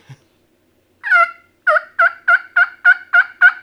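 Turkey yelps from a mouth-blown latex diaphragm call: one longer raspy note, then a steady run of about eight short, evenly spaced yelps, loud and alone.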